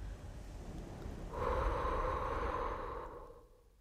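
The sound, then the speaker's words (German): A slow, breathy exhale onto a mirror: one soft, hissing breath that swells for about two seconds and then fades, faint and heard alone. “Komm. Hier. Atme. Auf den Spiegel.”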